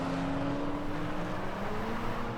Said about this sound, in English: runs alongside a car as it screeches out of the car park, following others down the road